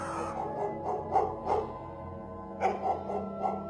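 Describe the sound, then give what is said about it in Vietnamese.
Dogs bark in a village: a few short barks in two bursts over a steady humming tonal background. “Tiếp theo đó là chó ở trong xóm nó cắn lên ông ổng.”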